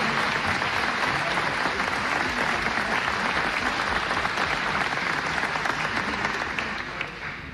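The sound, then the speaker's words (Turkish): An audience applauding musicians after a Turkish folk song played on davul and zurna. The clapping is sustained and dense, holds steady for several seconds, then tapers off at the end. “Onları da alkışlamak istiyorum.”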